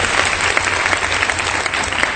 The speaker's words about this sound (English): Let's give the Lord a big hand for the brazen worship.